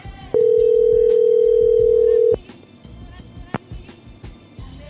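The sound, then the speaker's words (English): An outgoing call to a cell phone sounds a telephone ringing tone: a single steady, mid-pitched tone lasting about two seconds, with talking in the background. “Call him back. Let's try and get his fiance on the phone.”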